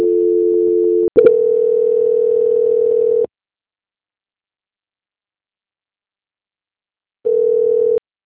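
Steady, buzzing telephone tone during a call transfer: a brief first tone, a tiny break, a longer continuous tone, then several seconds of silence before the tone returns briefly.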